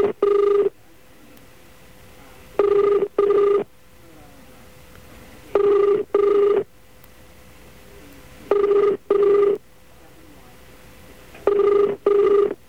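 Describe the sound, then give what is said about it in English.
A telephone ringing tone repeats in steady double bursts, each pair separated by about two seconds of silence, loud and even in pitch, with no talk over it. “The sound of a backspace key, apparently. Oh, wow. That sounds like a ring. Sounds like an underwater ring.”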